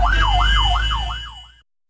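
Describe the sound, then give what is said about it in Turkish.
A fire engine's siren wails as the truck is blocked by a driver in traffic: quick, loud, repeating rise-and-fall sweeps over a low engine rumble, stopping abruptly before the end. “Sürücünün itfaiye aracının geçişine engel olduğu anlar cep telefonu kamerasıyla kaydedildi.”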